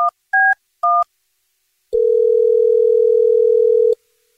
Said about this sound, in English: You texted 41061 that you had a dirty little secret, so we're calling you now.